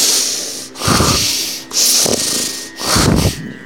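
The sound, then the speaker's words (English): Heavy, angry snorting breath forced through the nostrils, three loud drawn-out rushing breaths separated by short pauses, heard alone. “His nostrils breathed heavily, accentuating his angry looks.”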